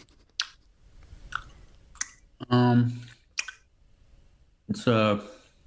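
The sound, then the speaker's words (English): Wet, sloppy eating of a stew heavy on Gravox gravy from a small pub: a few sharp squelchy mouth clicks spaced apart, with two longer voiced murmurs between them. “Tell you what, this stew is, it's pretty sloppy, isn't it?”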